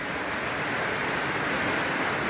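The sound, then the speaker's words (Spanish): Floodwater after heavy rain rushes down a town street in Santa Bárbara, Tarragona, in Catalonia. It makes a steady, dense roar like a waterfall that holds the same level throughout, with no voices. “Aunque lo parezca, no es un río, es una de las calles de la localidad tarraconense de Santa Bárbara. Las fuertes lluvias han provocado inundaciones como esa en Cataluña.”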